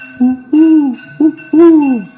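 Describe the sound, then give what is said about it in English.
A cuckoo calls in a forest with two paired notes, each a short note followed by a longer one that slides down in pitch. The calls are loud, hollow and hooting, with nothing else heard. “The forest bower is permeated with the sweet kuhu sound of the cuckoos”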